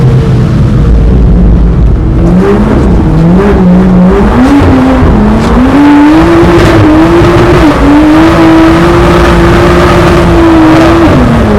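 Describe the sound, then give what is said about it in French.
A BMW engine revs hard while driving, its loud droning note climbing in stepped surges, then holding high and steady before a brief drop near the end. “Une BMW, c'est quand même quelque chose. C'est quand même quelque chose de fou.”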